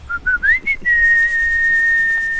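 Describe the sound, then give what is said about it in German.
A whistle calls a flock of trained chickens: a few short, clear whistle notes, one rising, lead into a long, steady high tone that holds to the end. “Es gibt einen Pfiff. Das ist super sinnvoll, wenn man das macht, wenn man die Hühner darauf dressiert.”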